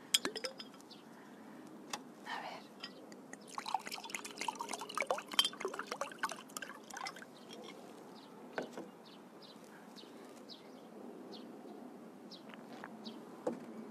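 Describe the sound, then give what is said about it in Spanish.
Glass clinks and splashes of water as someone gets a little water to drink, with many small, irregular clinks and drips, fairly faint, and no talk. “Voy a coger un poquito de agua.”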